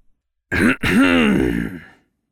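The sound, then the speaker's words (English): A furious centurion coughs as a deliberate, voiced clearing of the throat: a short gruff burst, then a longer drawn-out rasping grunt that fades away, heard on its own without other talk. “A furious-looking Centurion Darius coughed next to them.”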